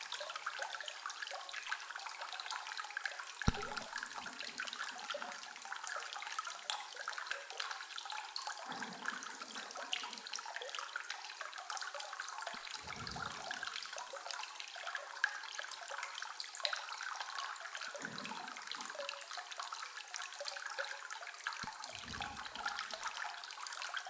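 Water runs in a hot spring bath with a soft, continuous flowing and trickling hiss, broken by a few faint, low bumps and splashes.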